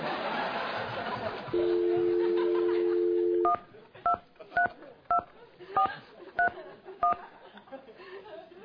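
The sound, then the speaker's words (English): A telephone number is dialled by touch-tone: a steady dial tone holds for about two seconds, then a quick, evenly paced run of short, clean keypad beeps follows, each a different tone pair. “Let's call up the guy I heard Denise has been dating and hang up on him.”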